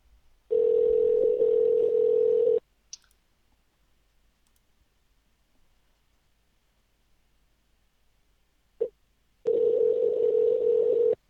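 A telephone ringing tone sounds on a call as two long, steady buzzing rings of about two seconds each. A long silent gap separates them, and a faint click marks each end of the gap.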